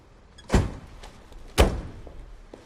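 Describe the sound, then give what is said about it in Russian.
A car door slams shut twice, two loud, sharp thuds about a second apart, each with a short booming tail over a low, quiet background. “хлопнул дверью машины и ушел.”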